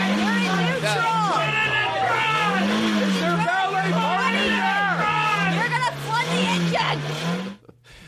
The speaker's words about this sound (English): All right, he's backing up. It sounds like he's backing. He's changing gears. Sounds like he's having trouble.